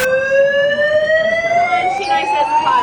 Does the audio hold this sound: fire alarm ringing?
yes